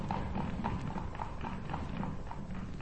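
Clip-clop of horse hooves as a horse-drawn carriage sets off, with many even hoofbeats in a brisk, steady rhythm, fairly quiet throughout.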